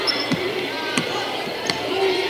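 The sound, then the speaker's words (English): Basketball bouncing on the court during a bounce pass in a women's basketball game, three sharp thuds spaced evenly over a steady background murmur. “Bounce pass to Barron.”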